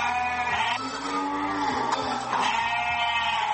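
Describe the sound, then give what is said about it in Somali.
Sheep bleat at a livestock market on the outskirts of Djibouti city, in the Balbala district: many loud, overlapping, quavering bleats sound continuously with a steady crowd of animals beneath them. “gegada xoolaha magaalada Djibouti waa goobta lagu xareeyo wixii xoolo nool lagu cunayo magaalada Djibouti”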